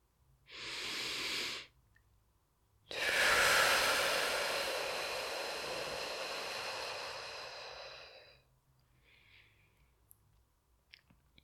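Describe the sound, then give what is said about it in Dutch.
Guided breathing during a calming exercise: a short, airy inhale through the nose, a brief pause, then a long, steady exhale through the mouth that slowly fades. Quiet and soft, with no talking. “Dus je ademt heel kort in via je neus en lang uit via je mond.”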